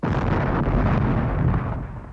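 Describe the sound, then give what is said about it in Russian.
A ceremonial cannon salute fires in one heavy boom that swells into a dense rumbling roar, holding loud for about two seconds before tailing off. “Предлагаю отдать пушечный салют в честь знаменитого капитана-одиночки Уильяма Уиллиса.”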